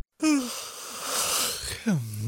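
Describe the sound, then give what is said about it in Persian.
A person yawns with a voiced opening that drops in pitch and then a long breathy exhale. It ends in a lower, falling groan-like tone. “صدای خمیازه بود. بله، خمیازه یا صدای فاجعه کشیدن.”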